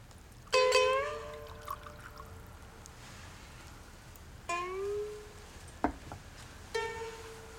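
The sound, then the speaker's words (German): Warm rice wine (sake) is poured into a small bowl: a few short, ringing trickles of liquid separated by quiet gaps. “Sie füllt ein Schälchen mit Reiswein und reicht es Takio mit anmutiger Geste.”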